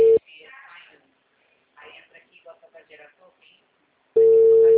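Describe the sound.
Telephone ringing tone on a call: a steady tone breaks off at the start and returns loud near the end, with a person talking in the gap between.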